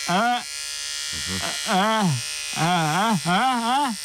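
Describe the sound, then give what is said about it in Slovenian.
An electric razor buzzes steadily through a shave, a loud, constant high hum that runs the whole time while people talk over it. “A vi norce brijete? Brijemo,”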